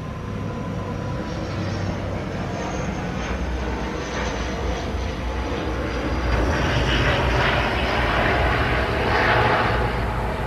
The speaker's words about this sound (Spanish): Esperemos que pase el avión.